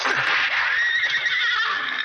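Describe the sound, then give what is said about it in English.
A horse whinnies after being hit during a gunfight, one long, loud, high-pitched whinny with a quavering, wavering pitch that fades slightly at the end. “Hit one of the horses.”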